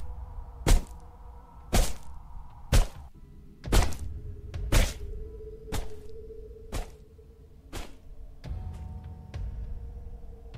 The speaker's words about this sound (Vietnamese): Mỗi một câu mày chết với ông này là một cú đập xuống cứ thình thịch.